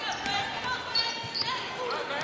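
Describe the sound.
A basketball is dribbled in the front court at a girls' high school game, a few dull bounces under constant crowd noise and voices.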